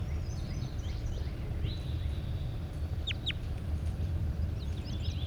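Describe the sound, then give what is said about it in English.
A large bird calls in a few faint, brief high chirps that rise just above steady low rumbling noise. “Definitely a large bird.”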